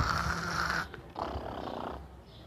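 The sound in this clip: A sleeper in bed snores with two long, rasping breaths separated by a brief pause, the second slightly softer than the first.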